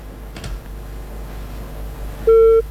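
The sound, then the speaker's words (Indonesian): A single loud, steady electronic phone tone sounds near the end after a caller's line disconnected, following a stretch of quiet line hiss. “teleponnya terputus”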